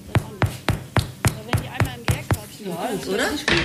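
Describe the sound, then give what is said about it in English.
Knuckles knock on freshly baked bread loaves taken from the oven to test doneness: nine hollow, even taps in a quick steady rhythm, then a voice speaks briefly, followed by one more knock. “So, und jetzt machen wir mal die Klopfprobe.”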